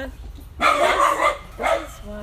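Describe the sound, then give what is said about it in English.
A dog barks loudly in a couple of sharp bursts, separated by a short pause, with quieter sound in between. “Okay, I'm putting the dog back inside. Man, this dog loves to bark.”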